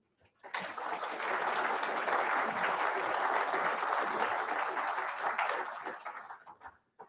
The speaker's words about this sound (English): Thank you all for being here, and uh, please join me in a warm welcome for Brent Morris.